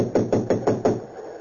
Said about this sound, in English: We'll try knocking. Sometimes the knock will wake them when the buzzer won't.